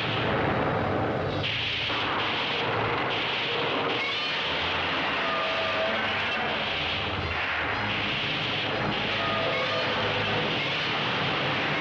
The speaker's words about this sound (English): the most powerful, the newest, the most devastating of weapons, blast into action in their effort to destroy all monsters.